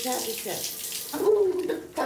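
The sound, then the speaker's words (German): Water runs steadily from a tap as a caregiver washes a person's hair, a constant hiss with brief voices mixed in. “Ich wasche Ihnen jetzt die Haare auch einmal mit, ne?”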